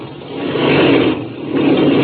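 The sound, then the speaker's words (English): A small aircraft engine drones while taxiing under trees, a loud continuous rumble that dips briefly midway and then swells again. “Then I'll cut the engine.”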